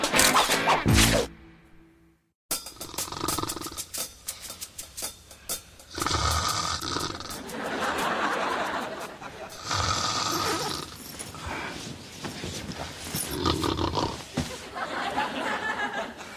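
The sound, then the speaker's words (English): Loud snoring through the nose of a sleeping man: a few long, rough, roaring rasps rise out of a steady noisy background, with a brief pause near the start. “How can so much noise come out of one nose? Maybe if we close it. Nah, then the noise would just come out of his mouth.”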